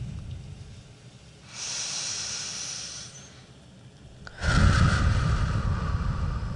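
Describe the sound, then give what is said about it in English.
Deep breathing during a guided relaxation exercise: one long, soft inhale rises as a breathy hiss, then after a short pause a louder, fuller exhale rushes out and continues to the end, with no voices. “Now bring yourself back to the present moment and let's take one more big deep breath together.”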